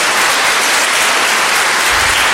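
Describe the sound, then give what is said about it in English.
Applause at a school debate competition: dense, steady clapping from a crowd that runs loudly and evenly through the whole clip, with no voices. “You all deserve a round of applause.”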